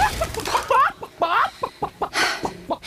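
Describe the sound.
A white hen clucking just after being let out of a bag: a loud, agitated string of clucks and higher squawking calls in uneven bursts.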